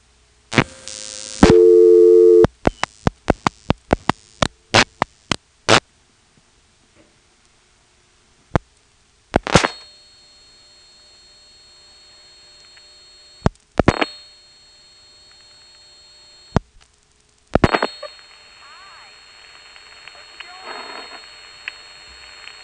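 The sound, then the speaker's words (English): Telephone trunk line carrier noise after dialing through a second trunk: a quick run of dialing clicks and tones, then a steady hiss and hum broken by several loud clicks, with faint crosstalk near the end. “And once we dial the 28 for Sunbury, you can hear the carrier noise increase with the second trunk, and that second trunk has crosstalk.”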